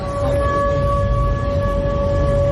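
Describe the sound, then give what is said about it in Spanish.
Air raid sirens sound at night over the city of Krasnodar during a drone attack: a steady, sustained siren tone holds unbroken throughout over a low rumbling background. “Y este es el sonido de las sirenas antiaéreas esta noche en Krasnodar”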